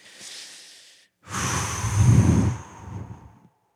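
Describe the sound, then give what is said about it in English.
Deep breathing in and out during a seated group prayer: a soft, airy inhale, a brief pause, then a longer, fuller exhale with a low breathy rush. The breaths are fairly faint, with no talking. “Deep breath in and out.”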